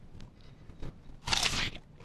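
Chewing and biting into chicken that a sister-in-law cooked, with soft mouth noises followed by one crunchy bite. The sounds are faint and heard alone.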